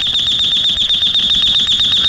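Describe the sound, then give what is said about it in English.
An alarm clock rings loudly and continuously with a shrill, high, rapidly pulsing buzz, each rattling beat evenly spaced and unbroken across the whole stretch. “Huh? The alarm, honey.”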